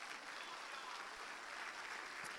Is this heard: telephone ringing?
no